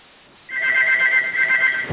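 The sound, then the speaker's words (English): A room telephone ringing: after a brief quiet moment, a steady electronic ring tone starts and holds to the end, closed by a soft thump. “Hold on a second. I apologize. I got to answer my room phone here.”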